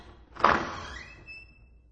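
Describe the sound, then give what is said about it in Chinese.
A door being pushed open: one dull thump, then a thin, sustained squeak that trails off and fades out. “我推开门，”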